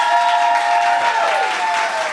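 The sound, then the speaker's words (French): A studio audience at a television game show gives a loud, steady burst of applause that fills the whole stretch without pause. “Maintenant, qui croit, par applaudissement, que c'est Frédéric qui a vu Mommy?”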